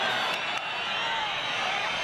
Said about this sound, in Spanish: Se ruega a los asistentes que guarden el respeto y la debida compostura. Marlaska reacciona a esos abucheos.